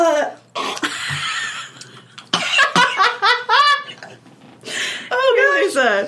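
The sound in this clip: A woman gagging after tasting something gross, with harsh throaty retches and coughs in short bursts, mixed with talking from several voices.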